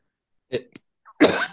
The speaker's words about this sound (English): I'll just have a coughing fit first, then I'll talk to you.